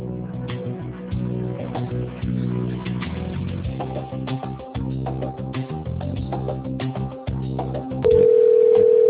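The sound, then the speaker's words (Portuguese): A telephone ringing tone sounds while a call is being routed: a steady single tone comes in near the end, after a stretch of shifting tonal notes. “Por favor, aguarde. Estamos direcionando a sua ligação. Você já será atendido.”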